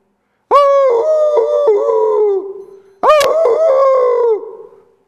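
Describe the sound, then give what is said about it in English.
A coyote howls close by at night, heard from inside a tent: two long, loud, wavering howls, each holding a high tone before sliding down and fading, with a short silence between them. “We're hearing this coyote howl, and it's not very far away from us. It's really close, like maybe 20 feet away.”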